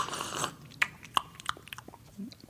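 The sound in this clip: Cereal being chewed: faint, crisp crunches and clicks at an irregular pace, following a brief rush of hiss at the start.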